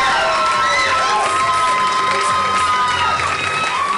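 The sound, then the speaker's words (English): A crowd cheers loudly for a guest at a live event, with shouts and whoops in a continuous roar and some scattered clapping throughout. “This sounds a round of applause for coming out.”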